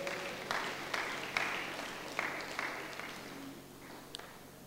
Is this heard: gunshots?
no